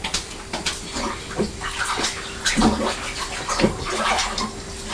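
Water splashes and sloshes as strawberries are washed, with several short bursts of splashing over a steady wet rinsing noise.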